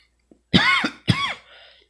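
Coughing from something stuck in the throat: a faint click, then two harsh, loud throat-clearing coughs in quick succession, the second trailing off into a softer raspy exhale.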